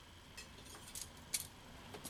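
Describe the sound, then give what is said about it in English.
Silverware clinks faintly as it is taken, a few light metallic chinks scattered over a quiet background. “Is your friend stealing white silverware? No, he's just borrowing it.”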